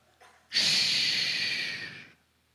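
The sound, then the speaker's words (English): A long breathy shushing hiss, a voice going shh to ask for quiet. One sustained, loud burst lasting about a second and a half, fading out at the end, with no talk around it. “you're going to hear the word shh. Everyone do that with me right now, just to shh.”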